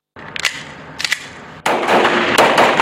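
Gunfire at a special police training range: two short, sharp bursts of shots, then a long, loud stretch of continuous rapid fire.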